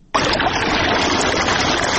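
Water flows steadily while a pomegranate orchard is irrigated in Tarinkot, a dense, even rushing that starts abruptly and continues at a constant loud level with no other sounds.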